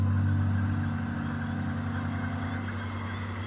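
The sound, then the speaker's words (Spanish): A car's engine hums steadily as the car drives back at sunset, a low, even rumble that stays at a constant level throughout with no clear rise or fall. “El coche regresa.”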